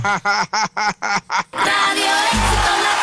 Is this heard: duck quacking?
yes